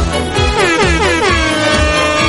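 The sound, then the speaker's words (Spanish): An air horn sound effect blares in a quick series of loud, brassy blasts with layered tones. “¡Vamos, esa bocina!”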